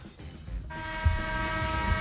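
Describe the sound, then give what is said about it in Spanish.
A horn blast sounds as one steady, buzzy tone that starts abruptly and holds unbroken to the end. It is fairly weak and thin, with a faint low rumble underneath. “Qué flojica te ha caído hoy la bocina.”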